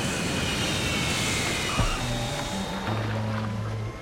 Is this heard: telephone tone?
no